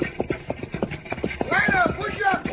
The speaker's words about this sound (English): Those horses are tired.